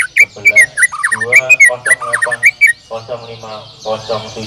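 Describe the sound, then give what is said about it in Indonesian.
A white-rumped shama (murai batu) sings a loud, rapid run of varied whistles, trills and sharp chirps, with many quick phrases rising and dropping in pitch and continuing throughout. “Murai Batu A”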